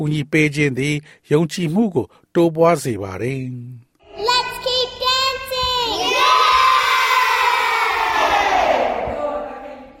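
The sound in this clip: Children shout and cheer together as a loud crowd, a continuous excited roar that swells after a few seconds of single voices calling out.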